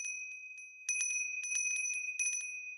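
A small, bright bell rings in quick, jangling bursts over a sustained high, clear tone, repeating at an uneven, lively rhythm.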